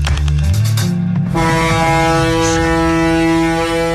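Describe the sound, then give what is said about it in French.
Foghorn of the ocean liner France sounds one deep, sustained, steady blast that starts about a third of the way in and holds loud to the end, preceded by lower tones. “la célèbre corne de brune du paquebot France”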